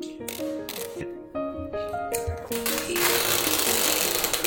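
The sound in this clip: Tape being pulled off a roll: a squealing, stepped run of tones gives way to a loud, continuous rasping screech that holds steady until the end.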